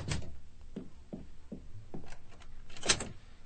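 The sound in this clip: A door being shut and locked, heard as a series of sharp knocks, thumps and clicks spread across a few seconds, with one louder impact near the end and no voices.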